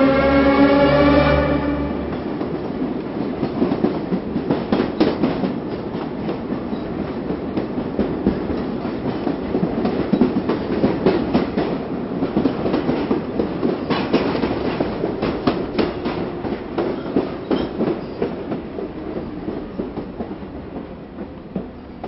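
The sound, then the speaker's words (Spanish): Subway train rattling along the tracks, a continuous loud rumbling clatter with rhythmic clicking of wheels over rail joints, steady throughout with no voices. “bamboleo rítmico del tren.”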